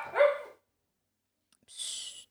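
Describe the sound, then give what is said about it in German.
A dog barks at someone coming in through the door, mistaking them for an intruder: one short bark, then after a pause a brief breathy sound. “Jetzt kam Pascal gerade die Tür rein und jetzt ist der Hund wieder ausgerastet, weil er dachte, es ist ein Einbrecher”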